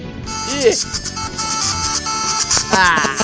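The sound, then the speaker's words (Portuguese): A mobile phone ringtone plays as a melodic electronic tune with bright, sliding tones, running steadily throughout while people talk over it. “Qual é esse toque? Não, o toque dele é esse aqui, ó. Não, deixa eu botar pra tocar aqui, peraí.”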